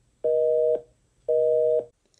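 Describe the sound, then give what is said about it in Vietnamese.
A mobile phone busy signal: two identical steady mid-pitched beeps, each about half a second long, separated by a matching pause, with no voices. “Điện thoại di động truyền ra tiếng máy bận.”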